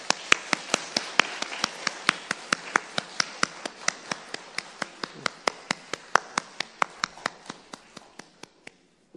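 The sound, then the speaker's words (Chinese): Church audience applauding, the claps falling into a steady unison rhythm: many evenly spaced, sharp hits, roughly three per second, continuing for about nine seconds. “我哋俾掌聲鄭傳道。”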